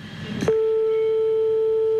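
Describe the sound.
Telephone ringing tone heard on an outgoing call late at night. A brief rustle comes first, then a steady, single-pitched tone starts and holds unbroken to the end.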